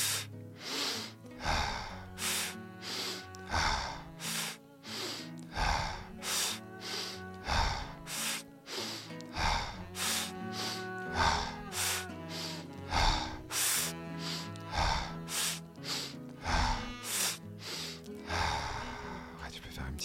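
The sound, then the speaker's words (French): Deep breathing exercise, drawing air in through the nose and pushing it out through the mouth. Many rhythmic breaths follow one another in a steady pattern, some sharp like gasps and others long like sighs. “inspire par la bouche, par le nez, et on descend tous les étages par la bouche”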